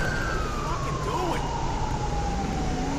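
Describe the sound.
A police car siren wailing in the video game FivePD, with the unit driving code 3. A steady tone glides slowly downward in pitch over loud engine and road noise.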